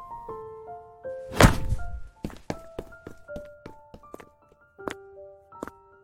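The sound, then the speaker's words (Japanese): A bag thumps hard against someone: one heavy, dull thud stands out among lighter taps and a soft, plucked melody in a childhood-friends drama. “んカバンぶつけるとか、ひどくね。”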